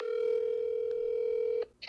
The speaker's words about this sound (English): Steve just texted me and called me back. I'm going to call him back right now.